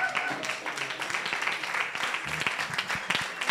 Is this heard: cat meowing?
no